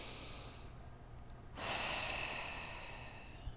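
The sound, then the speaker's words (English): Breathing in through the nose, quiet at first, then a single deep, airy inhale starts about halfway through and holds under a low, soft background hum. “start to take a couple of deep breaths in through the nose and exhaling out through the mouth.”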